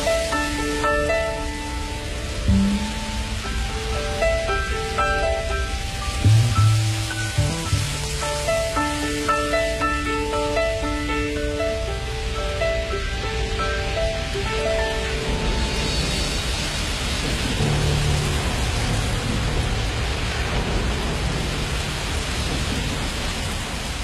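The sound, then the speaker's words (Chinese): Steady hiss of falling rain, constant and even throughout, with soft melodic music playing over it. “这个雨声真的是应时应景，我们就是在今天感受着雨”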